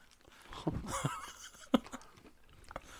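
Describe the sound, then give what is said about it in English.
Chewing and wet lip-smacking close to a microphone while people eat sour green apples, with soft irregular mouth noises and one sharper smack near the middle. “Just hearing our smacking so our mouth against the microphone.”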